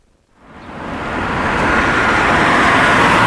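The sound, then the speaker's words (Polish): City-centre traffic rumbles at a taxi rank in central Wrocław. The broad, hissing roar of passing vehicles swells up over the first second, then holds steady and loud throughout. “Ścisłe centrum Wrocławia. Słupek z tabliczką taksi i tylko dwa samochody w kolejce.”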